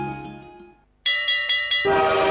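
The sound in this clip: A train horn sound effect: a multi-tone horn chord fades away, then after a short silence a louder horn gives four quick blasts before settling into a steady held tone.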